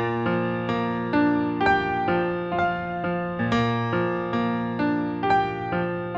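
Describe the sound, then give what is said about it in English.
A piano plays a simple, minimal B flat arpeggio motif, its notes repeating at an even moderate pace with sustained, ringing tones. “So that piano line sounds like this.”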